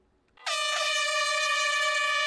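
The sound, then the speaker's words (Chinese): A single loud air-horn blast marks the start of a science-themed orienteering challenge race in an ecological park in Jinjiang. After a brief quiet moment, a bright, brassy, steady tone begins suddenly and holds to the end. “5月30号上午9点，随着一声鸣笛，科普定向挑战赛正式开跑。”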